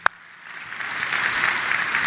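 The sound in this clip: A church audience applauds the worship team after a morning service. The clapping follows a single sharp click, then swells into steady, sustained applause.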